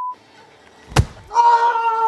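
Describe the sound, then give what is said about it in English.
A hard punch sound effect from a film scene, one character striking a ghostwriter in the face: a single sharp, loud thump, followed by a steady humming tone. “And that punch was the sound of the Ted Danson character hitting the ghostwriter really hard, maybe breaking his nose.”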